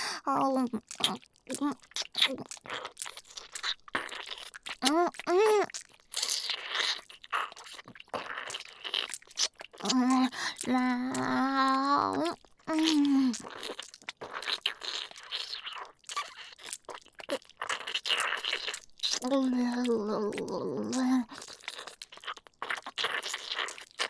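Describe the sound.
Wet slurping and smacking mouth sounds in a long run of quick, close clicks and squelches, with a soft voice speaking in short bursts between them.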